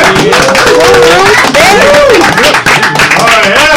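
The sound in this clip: A studio audience at a lifestyle show about youth and hip hop culture cheers and makes noise: a loud, continuous mix of whoops, shouting voices and clapping that stays dense throughout.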